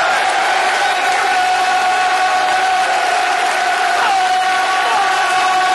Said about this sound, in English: Ladies and gentlemen, will you please make some noise for the return of the one and only Tim Cahill!